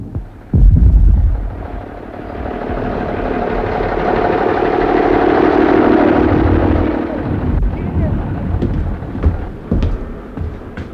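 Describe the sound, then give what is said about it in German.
Distant cannon fire from a wartime front, a deep rolling rumble that swells and lingers for several seconds, followed by a few sharper, shorter booms near the end. “Dieser Kanonendonner.”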